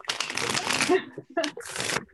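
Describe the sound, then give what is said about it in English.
Playing cards are shuffled and drawn from a deck in a few short bursts of riffling and sliding, separated by brief gaps. “Yeah, I'm going to pull three cards to describe Bigfoot.”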